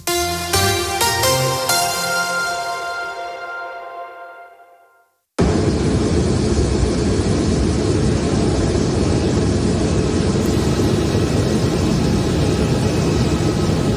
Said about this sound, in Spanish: Este que escuchas es el sonido de un avión. No el de un avión en vuelo, sino uno que se está desplazando en la pista de aterrizaje del aeropuerto de Barajas